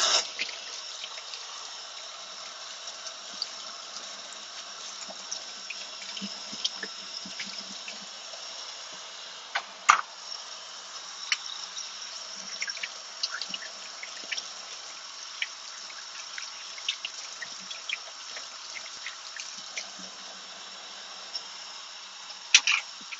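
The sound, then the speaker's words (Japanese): Tap water runs steadily into a sink while freshly washed dishes are rinsed, a continuous splashing hiss broken by a few light clinks and knocks, with no talking. “フライパンはちょっと後で洗うこととして、一旦今洗ったやつを流します。”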